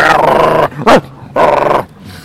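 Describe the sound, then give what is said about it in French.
A dog barks and growls in a few loud, rough harmonic bursts, with a short sharp yip between the two longer barks. “j'ai dit couché. Crotte, crotte et crotte. Franchement, je ne vais pas y arriver à ce canidé.”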